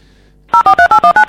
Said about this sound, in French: Voilà, c'est les bips du téléphone. Donc un bip, c'est très facile.